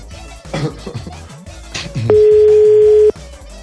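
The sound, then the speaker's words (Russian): A telephone dial tone sounds while calling someone, a single steady electronic tone lasting about a second, loud and flat, following a stretch of background music. “Прям берете и Сане звоните.”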